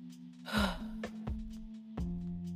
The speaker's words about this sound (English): take a deep breath,